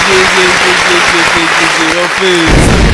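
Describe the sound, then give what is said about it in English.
Applause after a song, a dense, steady wash of clapping that stays loud throughout, with a rhythmic run of short tones pulsing beneath it. “That song deserves a round of applause.”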